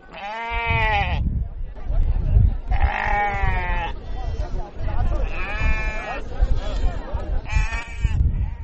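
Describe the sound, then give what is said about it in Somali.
Sheep and goats bleating at a busy livestock market in Hargeisa stocked with animals ready for export: several loud, drawn-out nasal bleats rise above a dense, rumbling background. “Waa sayladda iibka xoolaha ee magaalada Hargeysa waana ka dhaqdhaqaaq iyo aragtida duwan tahay muddooyinkii la soo dhaafay. Waxaa buuxa xoolo tiro badan oo diyaar ah dhoof.”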